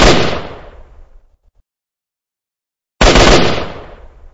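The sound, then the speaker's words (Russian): Two loud gunshots fired at the mouth of a grotto. Each is a sharp, booming blast with a long ringing decay, and about three seconds of silence separate them. “Проснулся я от грохота выстрелов.”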